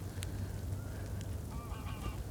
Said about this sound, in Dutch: Dus dit geluid, ik zal het even aan je laten horen. Dit is de vluchtroep.